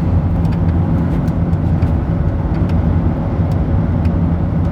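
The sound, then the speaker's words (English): Car driving: a steady, dense low rumble of engine and road noise, constant in loudness throughout with no breaks. “Collect my thoughts as I drive up to Loggerheads and meet a nice girl for a beer.”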